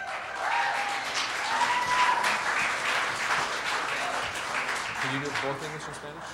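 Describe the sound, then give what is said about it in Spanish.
Applause from an audience at a church gathering: a steady wash of many hands clapping that swells and then slowly fades, with voices heard over it toward the end. “Un aplauso.”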